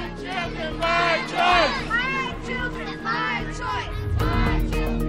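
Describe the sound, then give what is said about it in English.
Demonstrators at a state capitol protest Governor Newsom's COVID-19 vaccine mandate with a loud crowd of overlapping shouting and chanting voices. The noise stays dense and sustained throughout, swelling in a few places. “we're hearing there the voices of demonstrators who took to the state's capital this past Monday to signal their strong opposition to Governor Newsom's recently announced COVID-19 vaccine”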